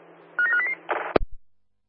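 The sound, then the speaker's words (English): Telephone dialing by security staff coordinating over a radio: a quick run of a few short electronic tone beeps, then a sharp clunk and a softer thump before silence. “Yeah, dialing now.”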